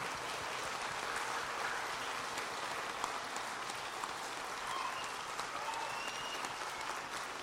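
Audience applause welcomes a pastor on stage at a church. The clapping is steady and continuous, fairly soft, and carries on without a break.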